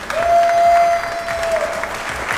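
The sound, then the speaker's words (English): Audience applause at a competition prize ceremony just after the winners are announced: dense, steady clapping that swells early, then eases slightly and carries on without a break to the end. “Applause.”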